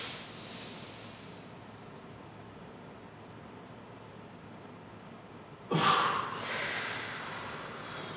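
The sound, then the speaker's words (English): A slow, deep cleansing breath during a yoga exercise: a long, soft inhale lasting several seconds, then a sudden louder, whooshing exhale that trails off. No talking. “Okay, that's a cleansing breath.”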